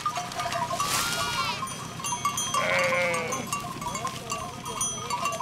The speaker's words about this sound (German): Wieder ein Schäfer, wieder eine große Herde.